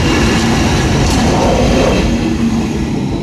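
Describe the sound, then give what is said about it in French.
A long freight train carrying cars, running from France to northern Italy, rolls past with a loud, steady rumble and rail noise that holds without a break. “vous voyez justement maintenant un long train de marchandises avec des voitures qui arrivent. Donc ce sont des trains qui viennent de France et qui vont jusque dans le nord d'Italie. C'est un train qui porte des voitures.”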